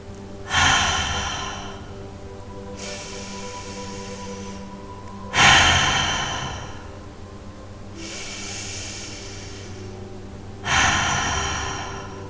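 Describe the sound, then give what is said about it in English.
Deep cleansing breaths during a guided meditation: three forceful, sharp-onset exhales that trail off, alternating with two softer, longer inhales, all over a steady low drone. “we're gonna begin with some deep cleansing breaths to clear out this energy and let go of whatever does not serve us right now.”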